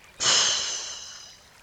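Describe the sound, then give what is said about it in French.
A single long, airy breath taken during a guided chakra meditation, beginning abruptly and then slowly fading over about a second, with no talk around it. “Inspirez, soufflez.”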